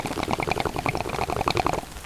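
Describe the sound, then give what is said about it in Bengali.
Water bubbles inside a hookah as someone draws on it in a sitting room. Quick, soft gurgling bursts follow one another steadily in an uneven rhythm, with no voices. “আরে বৈঠকখানার দরজা দেখছি খোলা, ওই তো তারানাথ হুকুই টান দিচ্ছে।”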